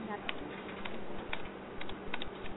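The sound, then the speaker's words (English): A computer keyboard clatters softly as a website address is typed in, with scattered key clicks coming in small irregular bursts, all faint. “Okay, so just type the job website address here.”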